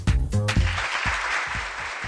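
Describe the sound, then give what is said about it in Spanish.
Applause breaks out and carries on as a steady, dense wash of clapping, holding at a fairly even level to the end. “Y este aplauso”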